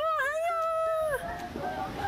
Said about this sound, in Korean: 어, 강아지.